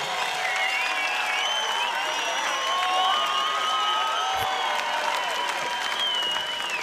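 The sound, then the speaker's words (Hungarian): Audience applause at the close of a live concert: sustained, dense clapping with shrill whistles and cheers layered over it, staying steady in loudness throughout. “megtapsolom utoljára a közönséget, benneteket, köszönjük szépen. Fantasztikusak voltatok!”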